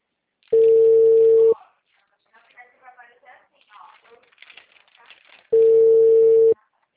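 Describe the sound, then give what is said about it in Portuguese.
A telephone rings while the caller waits for an answer. Two long, steady ringback tones sound about five seconds apart, and a person talks quietly between them. “Tá caindo chamada, fácil, tá demorando.”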